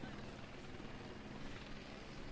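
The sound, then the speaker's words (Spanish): Helicopter flying very close above Plaza Cataluña, a continuous loud, dense rumble and rotor wash filling the whole clip without any pause, steady throughout with no voices. “comentar que está el helicóptero, pero a escasos metros de nosotros”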